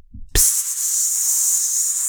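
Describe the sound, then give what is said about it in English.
A voice imitates a drink can being slowly cracked open: a brief low tap, then a loud, steady, breathy hiss that holds evenly for well over a second, like gas leaking from a partly broken seal. “you're doing the thing where you like grab the underneath the tab and you like are slowly trying to get like that tiny little crack in the seal where it'll start fizzing out a little bit and then it goes like”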